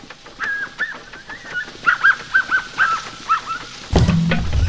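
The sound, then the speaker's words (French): A brown capuchin monkey of South America giving its bird-like cackling call: a run of short, high, chirping notes in a rough rhythm, ending in a louder, harsh burst. “Par exemple, le saï, avec le caquettement semblable à celui d'un oiseau. Voici le saï brun de l'Amérique du Sud.”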